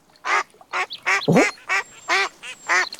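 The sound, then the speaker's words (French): Ducks quack in a quick series of loud, nasal calls separated by short pauses. One call in the middle is a different, sweeping squawk. “Tiens, des canards.”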